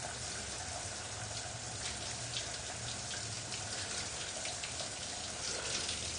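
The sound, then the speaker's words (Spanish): Shower water runs in a steady stream, a soft, even hiss with faint spattering. It continues unbroken throughout, with no voices. “Se encuentra con los ojos cerrados bajo el chorro de agua.”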